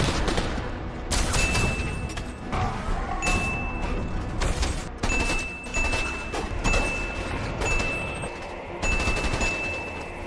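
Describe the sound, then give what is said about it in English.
Movie gunfire from a nightmare scene in a superhero film where a man guns down people: many dense, cracking shots in rapid bursts over a loud, continuous backdrop. “In the nightmare sequence, where he guns down 9 people.”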